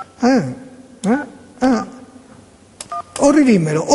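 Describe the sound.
Touch-tone keypad beeps as a phone number is dialed on a telephone, a few short electronic tones between stretches of a speaking voice.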